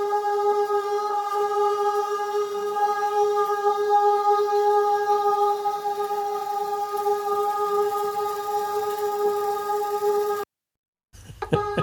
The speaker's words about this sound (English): So that's the sound of 25 volunteers all singing G sharp, right, which is one of the high notes.